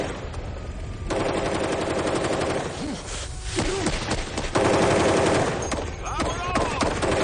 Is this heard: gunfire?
yes

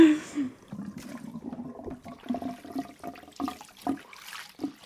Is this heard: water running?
yes

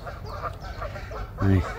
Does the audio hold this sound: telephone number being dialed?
no

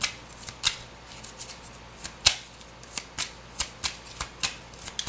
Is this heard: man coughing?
no

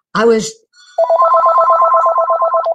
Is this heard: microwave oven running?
no

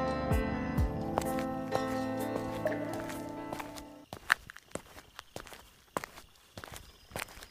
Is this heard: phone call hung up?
no

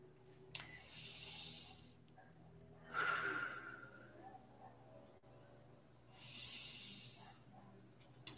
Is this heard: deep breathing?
yes

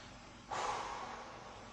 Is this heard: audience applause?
no

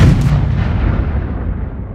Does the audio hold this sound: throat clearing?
no

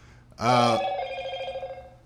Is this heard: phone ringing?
yes

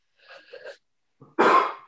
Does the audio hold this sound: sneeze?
yes

